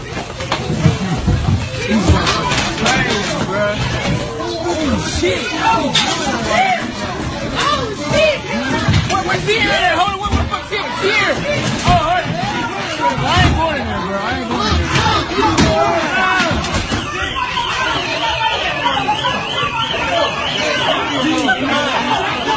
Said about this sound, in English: If you want to hear what the melee sounded like this.